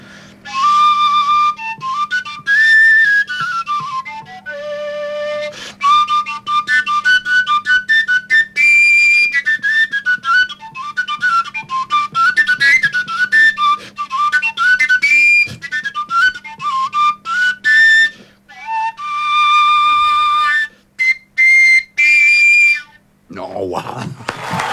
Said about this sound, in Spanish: Y es un instrumento que es una flauta, pero no tiene orificios. No, pues. Y entonces las distintas notas se hacen solo con la intensidad del aire y suena así